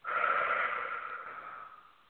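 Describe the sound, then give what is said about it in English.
A single deep breath drawn in, an airy, steady rush of air that starts abruptly and slowly fades over about two seconds, heard alone. “So a big breath in.”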